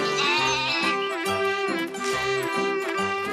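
A little goat bleats loudly in a run of several wavering, nasal cries that follow one another almost without pause.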